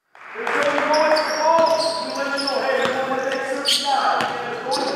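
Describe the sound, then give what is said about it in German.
Basketball bouncing on the parquet court during an FC Bayern basketball practice, several sharp thuds at irregular intervals with voices talking over them. “Immer wieder sprintet der Coach der FC Bayern Basketballer übers Parkett, blockt, schnappt sich den Ball, macht vor, was er von seinem Team sehen will.”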